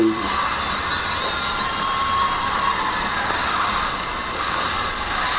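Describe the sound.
A wrestling crowd roars at a WWE Clash of Champions 2019 tag team title match featuring The New Day, a loud, steady wall of cheering and shouting that holds level from start to finish.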